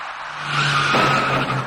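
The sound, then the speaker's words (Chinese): Tires squeal loudly as a taxi turns at a city intersection at night and collides with an electric bicycle, a sustained screech with a steady high tone lasting over a second. “那位电动自行车的骑车人跟这辆处于转弯中的出租车发生了相撞事故。”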